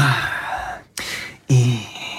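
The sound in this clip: A voice imitating the impatient, heavy breathing of someone waiting behind in a supermarket checkout queue: three loud, breathy huffs separated by brief silent gaps.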